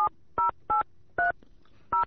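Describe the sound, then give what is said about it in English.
Touch-tone beeps as a telephone number is dialed: five short, clear two-tone presses in an uneven rhythm, with quiet gaps between them. “I'm going to try to make a call, see if I could reach them out there.”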